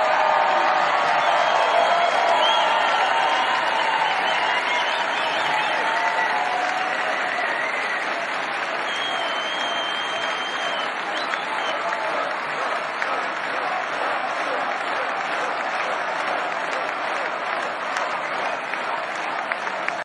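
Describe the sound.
Sustained, loud applause and cheering from a crowd at a political rally during a Trump speech at CPAC 2023, a dense wash of clapping with scattered whoops that holds steady throughout.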